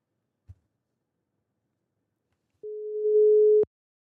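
Ringback tone of an outgoing telephone call. A faint click comes first, then a single steady mid-pitched beep of about one second.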